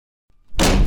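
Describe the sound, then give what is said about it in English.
A door slamming shut: after near silence comes a faint knock, then a loud, heavy bang hits near the end of the brief clip. “That's the sound of a door slamming in your face.”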